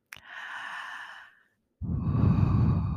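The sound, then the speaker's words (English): A deep cleansing breath: a long, hissy inhale starting with a sharp catch, a brief silent pause, then a fuller, louder and rougher exhale, heard alone without talk. “So let's begin with a deep cleansing breath.”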